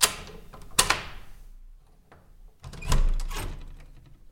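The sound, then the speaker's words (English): Faint metallic clicks of a lock being picked, a few scattered ticks over quiet stretches, then a louder burst of rattling and knocking as the door is worked open. “We pick the lock. Now in our luck, it'd be bolted. You're going to open it then?”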